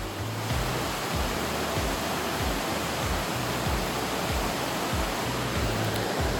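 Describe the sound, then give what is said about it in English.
A river flows at the meeting point of several rivers beside thermal pools southeast of Medellín, making a loud, steady rushing wash of water that stays even and continuous throughout, with no voices. “southeast of Medellin, at the confluence of a couple of different rivers here where there are some thermal pools and you can hear the river in the background”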